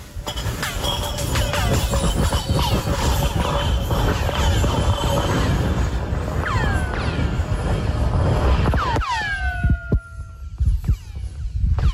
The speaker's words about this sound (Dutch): En het is een brokje ijs dat in een 150 meter diep boorgat wordt gegooid op Antarctica.